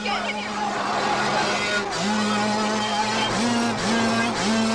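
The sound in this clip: A dirt bike's engine revs as it battles a bulldozer in a movie scene. Several rising motor whines surge in repeated bursts beneath overlapping voices.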